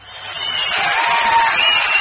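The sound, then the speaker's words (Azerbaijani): Studio audience applauding and cheering a contestant on a television erudition quiz show, a thin, continuous burst of clapping that builds slightly over two seconds. “Şiraz Abbasov da dekabrın 15-də belə alqışlanmışdı.”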